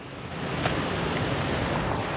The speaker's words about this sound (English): It's a windy day.